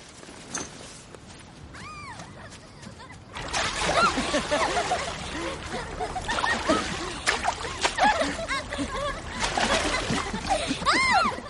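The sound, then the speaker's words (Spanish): Water splashing as a group of young people play in the shallows at a lake shore, with continuous busy sloshing and many scattered splashes. Voices are mixed in. “Christian y las chicas se salpican agua en la orilla”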